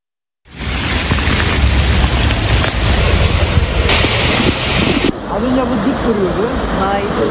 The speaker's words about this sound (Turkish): Beklenen sağanak yağış birçok ilde etkisini bakın nasıl gösterdi.